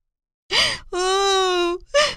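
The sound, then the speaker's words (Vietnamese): A little girl sobbing and wailing in fright. A short, breathy sob leads into a long, loud, sustained wail at a steady pitch, followed by another choked sob. “Tí Hon hoảng sợ, òa khóc nức nở.”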